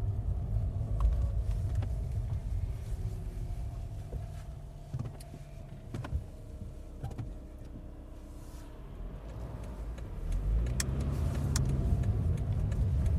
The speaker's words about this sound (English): Driving through country lanes, wildflowers are in the hedgerow.